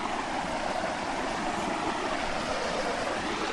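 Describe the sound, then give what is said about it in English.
Oak Creek water tumbling over rocks along its tree-lined banks, a steady, even rush of flowing water that holds the same level throughout, with no talk. “I'm just walking down to the very banks of Oak Creek through the trees that grow along the sides of the creek here. You can probably hear it falling over the rocks in the background.”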